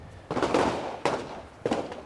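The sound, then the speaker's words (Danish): Three sharp gunshots at an indoor shooting range on Amager, Copenhagen, evenly spaced, each a loud crack followed by a long, booming reverberant tail. “På vej ind på en skydebane på Amager.”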